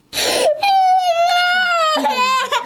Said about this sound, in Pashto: راپور لري چې د یوه کوچني په ږغ پیلېږي